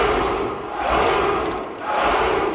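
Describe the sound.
A mass shout from an army of about a thousand soldiers yelling in unison: a dense, roaring crowd cry that stays loud throughout and swells twice.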